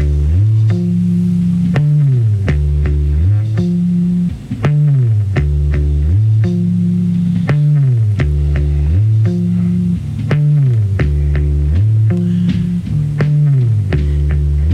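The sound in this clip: Isolated electric bass guitar part pulled from a classic rock studio album: a loud, deep, melodic line of repeating notes stepping up and down in a steady rhythmic pattern, heard alone with no other instruments or voices.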